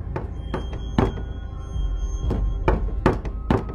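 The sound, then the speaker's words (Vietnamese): Knocking on a door at night: a few dull, hollow thuds spaced irregularly over a low rumbling background, with no voices. “Bóng ma lại đi vòng ra ngoài rồi gõ cửa. Tiếng gõ cửa vang lên trong đêm.”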